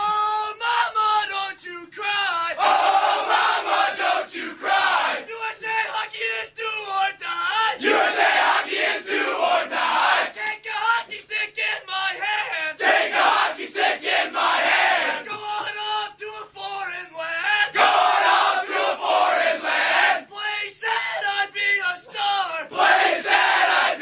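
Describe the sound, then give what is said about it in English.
A loud crowd chants and cheers in rhythmic bursts after Team USA beat Canada in a gold medal game, with yelling voices swelling and dipping throughout. “So this is Team USA after they beat Canada the last time in the gold medal game.”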